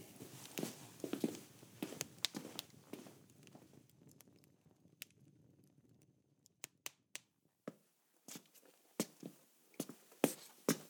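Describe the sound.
Footsteps climbing steps inside a farmhouse: many sharp, irregular knocks and thuds that come in a busy cluster, pause in a quieter stretch, then return as distinct single steps.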